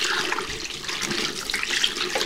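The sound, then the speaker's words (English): Water running from a tap while hands are washed, a steady rushing splash that holds at an even level throughout, with no talk. “Please wash your hands.”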